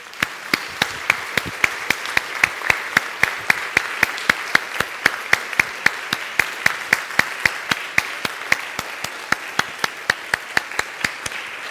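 An audience claps to welcome novelist Rachel Joyce onto the stage at a book-and-wine event. The crisp, evenly spaced claps come in a steady, brisk rhythm for many beats over a low hum of the crowd.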